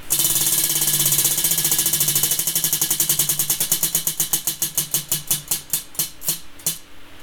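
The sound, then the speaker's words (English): A prize wheel spins with rapid, sharp ticking from its pointer. The clicks start dense and fast, then spread out steadily and come to a stop after about seven seconds. “Shall we spin that wheel? Yeah, let's do it.”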